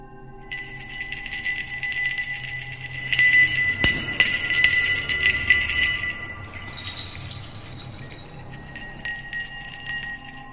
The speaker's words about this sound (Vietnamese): Ở bên đâu đó, có tiếng chuông vẫn cứ vang lên lanh lảnh.